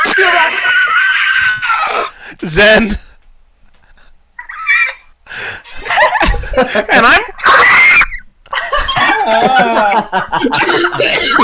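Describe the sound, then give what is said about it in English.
Several people shriek, screech and wail in imitation of raptor dinosaur calls, trading loud bursts with snickers, laughter and brief talk between them. “I'm not used to making raptor noises.”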